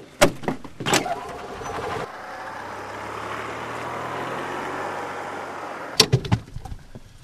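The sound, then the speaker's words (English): A battery-powered golf cart drives out onto a golf course. Its electric motor gives a steady, low whine for several seconds, bracketed by a few clunks and knocks at the start and end. “On this sunny day, he squeezes into a golf cart to make his rounds. Sporting a sweatshirt and a baseball cap, Leach drives his battery-powered cart out onto what he sees as an ecologically friendly course.”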